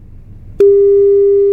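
Phone call tone while waiting for an answer: after faint low background noise, a single steady, pure electronic tone starts abruptly and holds loud and unbroken to the end.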